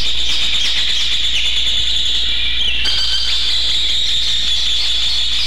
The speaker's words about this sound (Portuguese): E o João de Barro também já tá cantando.